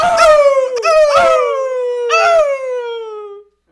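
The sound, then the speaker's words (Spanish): A wolf cries out after burning its tail, a long yelping howl that slides gradually downward in pitch, loud and alone, broken by a few rough, noisy bursts before cutting off abruptly. “el lobo se quemó la cola y se fue gritando.”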